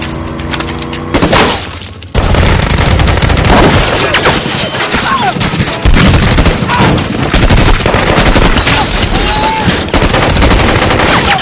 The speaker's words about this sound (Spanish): Avanzan hacia la barrera mientras disparan a los agentes que intentan defenderse.